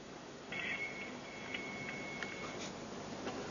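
Telephone line sound as someone dials to call a woman back: a faint, thin, steady high tone holds for about two seconds, with a few soft clicks over a hissy line.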